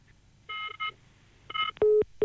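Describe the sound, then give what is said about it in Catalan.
Telephone dialing tones sound as an outgoing call is placed: three bright keypad tone bursts, then lower, steady ringing tones that start and stop in short pulses, with no talk. “L'estaven trucant, no? Sembla que sí, hem perdut la comunicació amb el president de DINCAT, José Carlos Eiriz”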